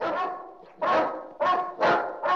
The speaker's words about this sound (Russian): Только собаки лай подняли.